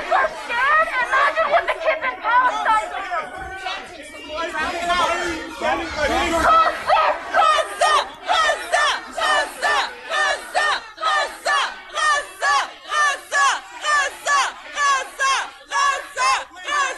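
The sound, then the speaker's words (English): Anti-Israel protesters chant loudly at an Ottawa mall during children's Santa photos. Mixed crowd shouting first settles into a steady, repeated rhythmic chant of many short, even bursts. “There was a story about how these anti-Israel activists are now going to malls. They went to a mall in Ottawa to disrupt kids who are getting their pictures taken with Santa.”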